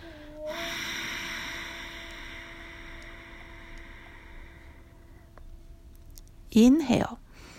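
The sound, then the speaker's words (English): A long, deep exhale during a guided breathing exercise: a steady, breathy rush that lasts several seconds and slowly fades, then a brief, louder snort-like burst of breath near the end. “we are going to Take a deep breath together Exhale first”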